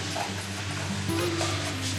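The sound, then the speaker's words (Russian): Flour sautéed in thoroughly heated oil in a pan gives off a steady, dense sizzle, an even hiss that runs unbroken for the whole stretch at moderate loudness over a low, constant hum, with no voices. “Когда масла достаточное количество, это вот, наше масло уже достаточно прокалилось, мы добавляем туда немножечко муки, пропассировываем ее в масле.”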